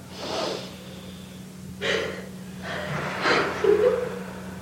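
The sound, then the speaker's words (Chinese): Forceful breathing through a congested nose: short snorting bursts of air separated by brief pauses, over a faint steady low hum. “你用鼻子吸气，用力吸进去以后哈，憋住大概 one two three seconds， 你再让它 let go”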